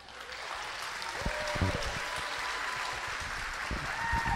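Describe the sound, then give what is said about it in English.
Audience applause welcoming a performer on stage for the first time ever: a steady, dense wash of many hands clapping that holds at an even level throughout. “Please put your hands together and make welcome, for the first time ever, Lisson Lejeune.”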